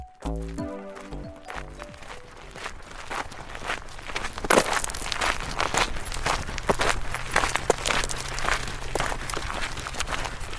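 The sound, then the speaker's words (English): Footsteps crunch along a wide gravel track near a salt marsh estuary, with many steady, even steps carrying through to the end and no talk. “We're walking down a wide gravel track”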